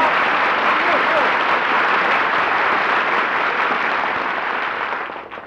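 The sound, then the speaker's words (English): Audience applause greets a performer returning to a comedy show: a full, steady wash of clapping that holds for several seconds before tapering off at the end. “was all that applause for me?”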